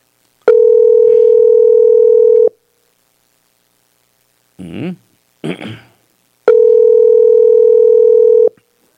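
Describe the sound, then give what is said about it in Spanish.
A telephone line tone during an outgoing call: two long, steady buzzing tones of about two seconds each, separated by a gap in which a brief voice is heard. “Ahí la cosa no suena ya ocupado. Ah, no, ahí está. Suena otra vez como ocupado.”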